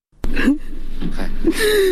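Anguished crying and wailing from a father mourning his three sons, killed by unknown gunmen in Nangarhar province; a sharp gasp opens into loud, breathy sobbing, ending in a long, wavering wail.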